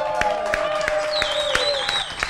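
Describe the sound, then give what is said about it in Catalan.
A live audience at the Ateneu de Sabadell claps in a steady rhythm, regular sharp beats with sustained crowd cheering over them. “Ja que tenim els oients aquí en directe, des de l'Arteneu de Sabadell, va, fer una mica de soroll. Una altra, va, que es noti.”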